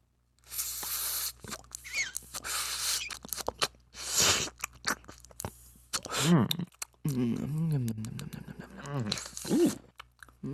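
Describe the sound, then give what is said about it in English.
A dry hit taken from a cannabis bong gives crackly, airy bursts of bubbling and rasping that come in uneven waves, with people talking and making voiced sounds during the later part. “we are going to be doing a quick little dry hit to give you guys a nice little flavor profile. Good Buds ASMR moment.”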